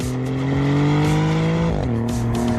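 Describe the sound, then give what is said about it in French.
Engine of a second-generation Maserati GranTurismo Trofeo coupé, its twin-turbo V6 replacing the earlier naturally aspirated V8, giving a loud, steady, buzzy drone that climbs slightly in pitch, dips sharply, then carries on. “C'est vrai qu'il sonne bien ce V6.”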